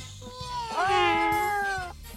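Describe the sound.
A voice imitates a cat's meow while pretending to be cats in a children's game: one long, drawn-out meow that rises, holds and sags, over low, evenly repeating pulses.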